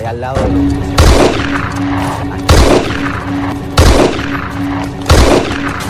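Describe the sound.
Four loud gunshot bursts ring out at roughly even intervals over a steady low rumble, a war-drama gunfire effect set in the bush.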